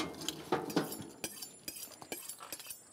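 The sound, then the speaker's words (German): A plate being moved on a table during meat preparation: a quiet series of light clinks and knocks of crockery and cutlery, irregularly spaced, with soft scraping between them. “Genau, ich bewege mal den Teller.”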